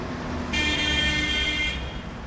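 Heavy traffic on Alexandria's seafront boulevard gives a steady, dense roar of engines and road noise. A long, sustained horn tone rises above it partway through.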